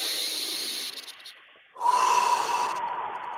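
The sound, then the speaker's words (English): A deep breath drawn in through the nose during a guided breathing exercise: a steady airy hiss that softens in the middle, then swells louder and holds to the end. “Nose in, mouth out, as much to the belly as you can. If not, just breathe deep in. Here we go. Deep in.”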